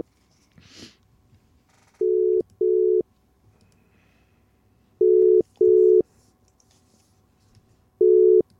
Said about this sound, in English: It's a WhatsApp call.